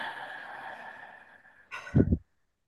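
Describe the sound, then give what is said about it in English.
One deep breath, drawn in a short, fairly loud whoosh, follows a faint tone that fades away. “Both hands. Deep breath.”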